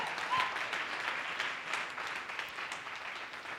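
An audience applauds during an Easter church service, with steady, dense clapping that continues evenly from start to finish.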